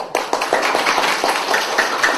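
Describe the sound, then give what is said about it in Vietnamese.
Audience clapping in a steady rhythm during a comedic talk, each sharp clap spaced evenly about a quarter second apart over roughly two seconds. “Cái anh ta vỗ tay quá trời, quý vị vỗ tay một cái luôn đi.”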